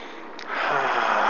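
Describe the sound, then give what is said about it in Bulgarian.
One deep breath is drawn in. The soft, airy inhale starts quietly and swells about a third of the way through, then stays steady to the end. “Все по-дълбоко вдишване.”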